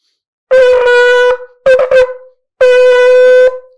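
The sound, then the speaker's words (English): A shofar sounds a tekiah, teruah, tekiah set: one long, steady horn blast, then three short broken notes, then another long blast. The tone is loud, bright and brassy, with short silences between the parts. “According to Rashi, your full set of tkia, trua tkia, is going to sound like this.”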